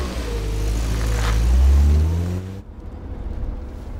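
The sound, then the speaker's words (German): A car engine accelerates, its low rumble climbing steadily in pitch for about two and a half seconds before cutting off abruptly into a softer, rougher engine rumble. “Los, geben Sie Gas.”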